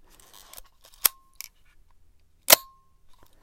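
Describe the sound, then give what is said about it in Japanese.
A film camera's winding lever and shutter give a few sharp mechanical snaps, some with short metallic ringing tails. Soft ratcheting rasps come between them, all fairly faint and separated by quiet gaps. “これこの巻き上げの音とシャッターの音”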